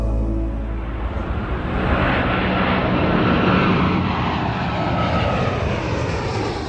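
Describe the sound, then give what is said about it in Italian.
A Ryanair passenger airliner in flight: a steady, loud jet-engine roar with broad rumble and hiss, swelling slightly and holding constant throughout, with no voices. “il volo Ryanair 4978 sta volando dall'aeroporto di Atene in Grecia verso Vilnius, in Lituania.”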